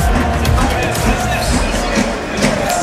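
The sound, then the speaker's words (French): Crowd of travelling Brive rugby supporters with drums at an away match in Agen, a dense, steady roar of many voices that stays loud throughout. “vous les entendez sur le côté avec les tambours, les supporters de Brive qui ont fait le déplacement ici à Agen”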